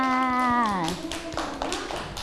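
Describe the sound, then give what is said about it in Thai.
Children clap in a classroom, a quick run of light, scattered claps, with an adult voice speaking over the first moment. “เด็กๆปรบมือให้น้องไม้ด้วยค่ะ”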